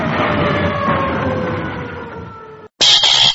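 Police patrol car siren wailing in steady tones that sink slowly in pitch over a rushing roar, then cutting off abruptly before a brief, bright, different sound.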